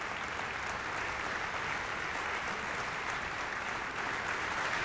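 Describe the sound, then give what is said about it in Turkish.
Applause from backstage as performers return to the stage after a concert set. Dense, steady clapping runs evenly through the whole stretch without pause. “Kulisten de epey alkış sesi geliyor bu arada.”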